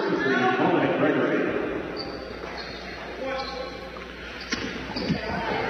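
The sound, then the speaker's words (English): A basketball is dribbled on the court during a game involving the Indians, its dull bounces thudding under steady commentary and crowd noise. “Fawns takes his time. Couple of dribbles.”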